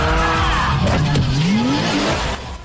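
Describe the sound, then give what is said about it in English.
Screeching tires and engine roar as a dark grey 2002 car drifts past in an arc through a garage with traffic cones and concrete pillars; a long squeal rises in pitch over steady engine noise, then drops away at the end. “Sean watches as DK effortlessly drifts past him in a perfect arc.”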